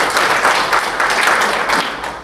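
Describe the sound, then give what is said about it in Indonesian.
Applause from a seminar audience at an industrial-relations event, a short burst of dense, even clapping that stays at a steady level throughout. “Atas dasar itu aplaus buat kementerian maupun pimpinan pusat.”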